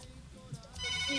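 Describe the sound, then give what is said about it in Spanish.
A phone rings faintly with an incoming WhatsApp call. The short ringtone is quiet at first and grows clearer and louder toward the end. “me está sonando la llamada, la línea de WhatsApp, la llamada telefónica.”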